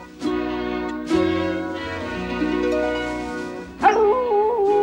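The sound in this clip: A dog howls from its cage, a wavering, high cry that swells near the end over a sustained tonal background.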